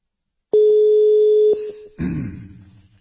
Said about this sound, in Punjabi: doctor ਸਾਹਿਬ ਕਾਲ ਕਰ ਦਿੱਤੀ